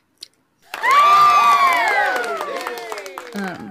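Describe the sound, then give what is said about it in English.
Crowd cheering: after a short click and a moment of quiet, a loud burst of high, excited shouting voices rises at once and then slowly fades. “Yay! Everyone cheered.”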